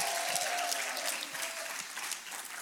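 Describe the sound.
Church audience at Calvary applauding during a worship service, a fairly faint, steady patter of many hands clapping together for the whole short stretch.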